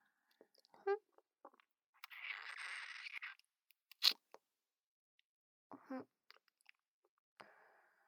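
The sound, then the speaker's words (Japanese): Someone eating ice cream, with soft chewing and crunching, scattered small mouth clicks and a longer rustling crunch in the middle, plus a few short vocal murmurs, all faint and spaced apart. “おいしい。アイスって熱いともっとおいしくなるよね。”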